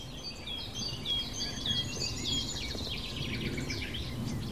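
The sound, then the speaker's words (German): Faint birdsong with a nightingale's whistled, warbling phrases among babbling song from other birds, over a low steady rumble. “Und immer wieder so plätschernder Gesang im Hintergrund. Einmal ist die Nachtigall, die sehr markant ist.”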